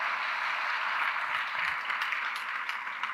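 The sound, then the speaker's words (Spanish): A church audience gives a round of applause during a service. The clapping is soft, dense and steady, with no single claps standing out. “Dale un aplauso fuerte al Señor.”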